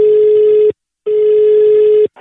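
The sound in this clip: Telephone ringing tone as a call goes out: a loud, steady, mid-pitched beep in two long bursts separated by a short gap, with a third just starting at the end.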